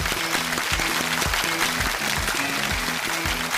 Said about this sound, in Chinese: 再次用掌声感谢李舰长给我们的精彩分享。